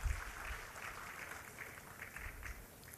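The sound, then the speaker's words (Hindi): Applause at a handicraft awards ceremony welcomes a weaving-category winner from Jammu and Kashmir, a steady, faint wash of clapping with no single claps standing out. “जोरदार तालियों से स्वागत कीजिए”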